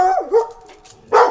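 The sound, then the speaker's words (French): A dog barking: two loud vocalizations with a short pause between them. The first is a whining yelp that bends down in pitch, and the second is a sharper bark. “Désolé pour les auditeurs, c'est mon chien.”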